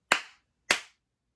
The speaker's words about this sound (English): Okay, three claps just to make sure, okay.